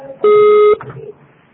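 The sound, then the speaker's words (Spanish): A single loud, steady electronic beep of a voicemail recording tone, about half a second long, followed by faint low sounds. “Para enviar, por favor, deja tu mensaje después del tono.”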